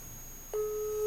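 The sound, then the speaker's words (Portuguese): A steady telephone ringback tone starts partway through an outgoing call and holds evenly over a soft hiss of line noise. “Não, o telefone tá chamando.”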